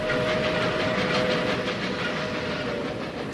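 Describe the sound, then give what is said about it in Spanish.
Steady rumble of a moving Talgo articulated light train carriage, with a continuous whining tone running through it and no talking. “estoy en un vagón de un talgo”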